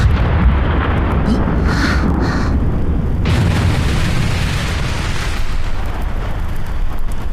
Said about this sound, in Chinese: 那是我们新筑的无敌大炮。